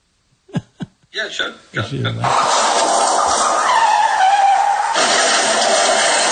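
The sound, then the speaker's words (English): A car skids as its driver pulls over, a harsh, sustained tire screech with a gliding tone that drops in pitch and holds steady to the end. A few brief vocal sounds come just before it. “Let me just pull over because I'm driving”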